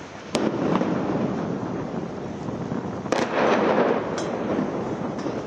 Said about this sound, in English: This just gives you a sense of the bombardment, a series of blasts a short while ago at Gaza's port. Smoke billowing right up into the sky there.